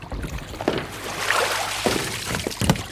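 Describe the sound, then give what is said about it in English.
A paddleboard is paddled through water up to a jetty, with a few soft splashing strokes over a steady background hiss. “If we just paddle up to this jetty and we can get off our boards.”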